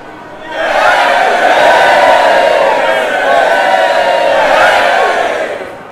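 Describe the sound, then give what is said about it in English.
Crowd cheering in an arena as a fighter steps into the ring. The roar swells up quickly after a quiet start, holds loud and sustained with shouting, then begins to ease off at the end. “Cheers are up from the back stands, anticipation builds for the event to come. You are instructed to step out into the ring. The cheers explode again as they see you.”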